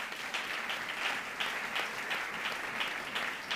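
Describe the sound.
A church audience applauds after a scripture reading, fairly soft clapping with a loose pulsing rhythm that carries on evenly and is not interrupted by speech.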